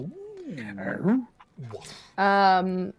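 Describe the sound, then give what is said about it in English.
Dogs whimper and whine with a few short yelping cries, then one sustained high-pitched whine near the end. “Ooh. Dogs.”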